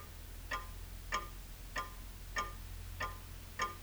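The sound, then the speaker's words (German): A clock ticks six times at an even, unhurried pace, each tick a short, bright click, quiet over a low, steady hum with nothing else heard. “Die Uhr steht nicht. Doch, die Uhr steht. Wenn du ganz still bist, kannst du sie ja ticken hören.”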